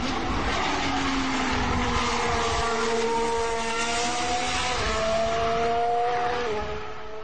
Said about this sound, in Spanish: voy a ponernos el otro motor que lleva un piloto español a sus mandos, el Toro Rosso Renault de Carlos Sainz.